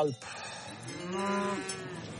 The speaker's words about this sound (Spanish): Aquí tenemos 90 vacas nodrizas con sus terneros, y esto no alcanza ni para un solo ternero.